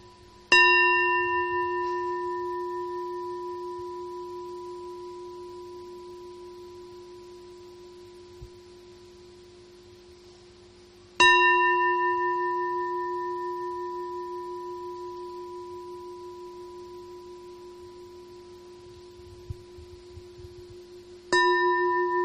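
Buddhist temple bell rung during seated meditation, struck three times at long even intervals, each stroke a loud clear tone that fades slowly for about ten seconds before the next.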